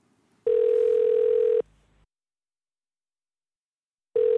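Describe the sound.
A telephone line tone sounds while someone is being called: a steady, pure, mid-pitched tone lasts about a second, then cuts off into silence before the same tone starts again at the very end.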